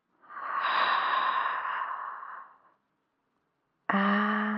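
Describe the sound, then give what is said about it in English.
A deep breath drawn in slowly during a guided relaxation, soft and airy, lasting about two seconds before silence. After the pause a short, bright tonal sound begins. “Let's take a deep breath”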